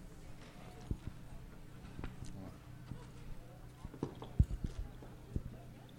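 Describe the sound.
Horse hooves thudding on the ground during saddle bronc riding, a bucking rodeo horse, with many irregular clops and a few sharper heavy impacts, alongside faint indistinct voices.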